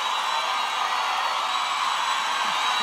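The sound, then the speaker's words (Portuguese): An audience in Goiânia cheers and applauds, a loud, even wash of crowd noise that holds steady without breaks. “Pode aplaudir muito mais esse menino maravilhoso.”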